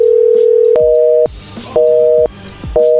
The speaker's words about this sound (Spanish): No, está cortando la llamada.